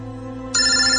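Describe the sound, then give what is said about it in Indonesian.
A mobile phone rings: an electronic ringtone starts abruptly about halfway through. It sounds as a bright, sustained tone, louder than the low steady hum before it. “handphone Asma berdering.”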